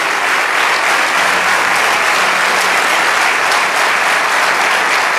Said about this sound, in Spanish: Vamos, dale ese aplauso.